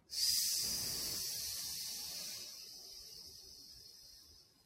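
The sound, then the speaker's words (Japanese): Long airy breath during a voice warm-up stretch focused on the inner muscles. The breath starts strongly, then softens into a fading hiss over several seconds, with no talk. “吸って、吐きながら倒す。”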